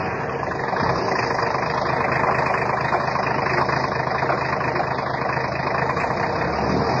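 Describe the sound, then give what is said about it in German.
A car engine runs steadily as the car drives on along a street of apartment blocks, a continuous mid-pitched drone with an even, unbroken hum and no voices over it. “Ich fahre mal ein Stück weiter.”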